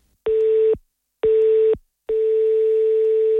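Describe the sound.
A telephone line tone while a call goes unanswered: loud, steady single-pitched beeps, two short ones with gaps between them, then a third that holds on without stopping.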